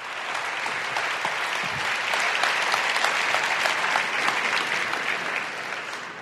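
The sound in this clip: Audience applause welcoming two speakers, one of them a pastor, to the stage at a church gathering: dense, steady clapping that holds at an even, loud level for about six seconds before easing slightly at the end.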